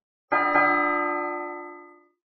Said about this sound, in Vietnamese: Chuông gần chuông xa nối đuôi nhau mà ngân lên, vọng quanh đỉnh Thông Thiên Phong